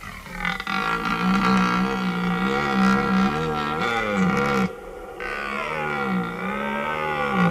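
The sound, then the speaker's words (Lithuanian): Red deer stags bellow during the rut in deep, drawn-out, wavering roars that carry on almost without pause, with one short gap partway through. “Taip mus sveikina taurieji elniai. Iš tikro dabar jų pasaulyje pats didysis šėlsmas rujos įkarštis.”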